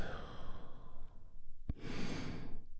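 A deep breath drawn in and released as a sigh during a guided healing relaxation exercise: a long, airy inhale, then a brief pause and a fuller breathy exhale, with no talking.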